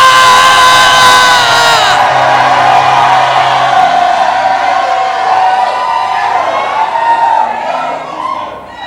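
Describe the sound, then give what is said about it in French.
A crowd shouting with joy, with loud, sustained cheering and high whoops from many voices that hold steady before easing and fading toward the end. “Poussons des cris de joie.”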